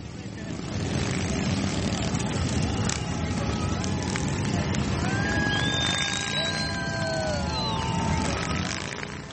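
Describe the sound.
Many motorcycles rumble through Washington DC in a veterans' rally, with a continuous loud engine roar and a few rising and falling engine tones, with voices mixed in.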